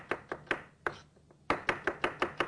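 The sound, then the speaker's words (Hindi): An onion being chopped with a knife: a series of sharp, crisp chops at a steady pace, with a brief pause midway before a quicker run of strokes. “प्याज की कोई मोटाई वोटाई नहीं है, जैसे दिल चाहे इसको आप काट सकते हैं, जितना मोटा चाहे आप इसको काट सकते हैं।”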